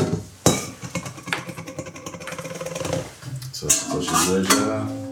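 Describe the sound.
Bowls and pans for an induction hob clatter as they are handled. Several sharp knocks and ringing metallic clinks rise out of a lower, uneven background.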